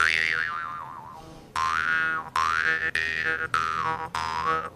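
Six resonant twangs come from a portable, blacksmith-made mouth harp played with the teeth on its frame. The first twang wobbles in pitch, and the later plucks ring out sharply one after another.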